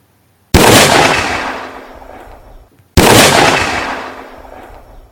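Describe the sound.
Two loud blasts from a size 12 gun, each a sharp crack with a long fading tail, about two and a half seconds apart.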